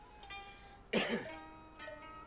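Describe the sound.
A man's single short cough, a brief harsh burst that stands alone against a quiet, faint background.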